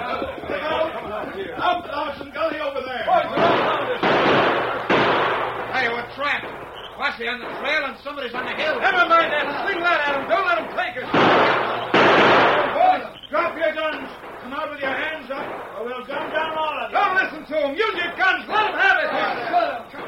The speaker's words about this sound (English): Then he saw the outline of Buck's figure as the outlaw stood to fire at the oncoming horsemen.